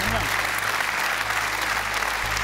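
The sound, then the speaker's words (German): Applause from a studio audience on a TV quiz show: dense, steady clapping that holds at an even level throughout. “Das ist ein Applaus wert.”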